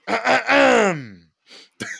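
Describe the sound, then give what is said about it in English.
A man clears his throat during a football discussion. Two short, rough bursts lead into a drawn-out voiced groan that falls in pitch. A soft breath and another brief sound follow. “As he clears his throat.”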